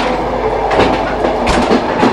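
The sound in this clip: Inside a moving Russian passenger train, a loud, continuous rumble of wheels and carriage runs with a few sharper rhythmic clicks of clickety-clack. No one speaks.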